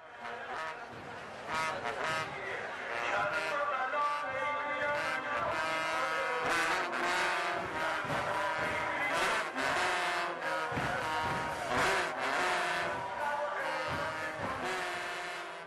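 A trumpet used in Shia mourning rites for Imam Hussein sounds in loud, overlapping brassy blasts, sustained and mournful, punctuated by sharp percussive accents throughout.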